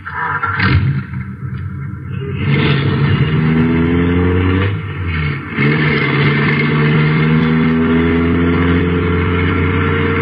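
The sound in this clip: An American car is driven in Chicago, its engine roaring loudly and climbing in pitch in stages as it accelerates, with a brief dip before the revs build again and hold steady.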